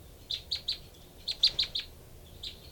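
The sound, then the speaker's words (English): Two birds call to each other, a female and another answering. There is a burst of three high, thin chirps, then four more in quick succession and a single last chirp. All are faint over a low background hiss. “Both birds here. 3-8-5. No, that's 3-4, the female. 3-4, then 3-8-5 responding.”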